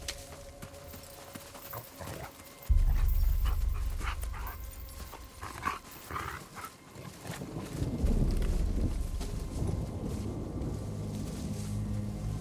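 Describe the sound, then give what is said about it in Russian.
Dogs pant and whimper while straining on their leashes through thick undergrowth, mixed with a dense rustling wash and a low rumble that swells at times. “Собаки тянут за повод, ведя людей через заросли.”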